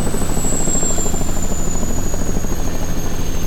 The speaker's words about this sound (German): Es war der Hubschrauberlandeplatz. Langsam steuerte der Pilot die Maschine genau auf diesen Punkt zu. Wenig später setzte er zur Landung an.